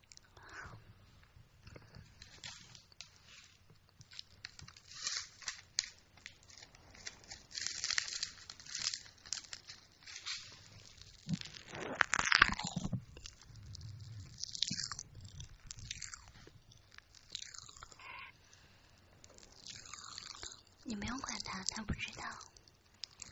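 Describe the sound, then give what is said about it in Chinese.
Open-mouthed chewing of candy, with wet smacking and crunching bursts at an irregular pace, heard under soft whispered talk throughout. “要么你就不要发出声音，就是你吃糖的时候张着嘴巴，你不流口水的是吗？我本来就在吃东西啊，”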